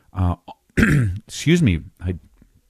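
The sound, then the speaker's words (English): Throat clearing: a few rough, voiced, grunting rasps in quick succession, loud and with no other sound. “here's the thing about my clearing out my throat.”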